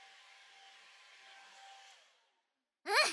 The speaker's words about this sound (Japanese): だいぶ乾いてきたじゃん。完全に乾かすと結局また少し水で濡らさないといけないから、あとちょっとだけドライヤーかけるから。